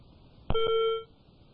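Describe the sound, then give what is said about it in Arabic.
Single electronic tone heard as a phone call drops, one steady mid-pitched beep lasting about half a second, fairly loud and alone, with no voices. “أيضا انقطع الاتصال مع إبراهيم من السعودية.”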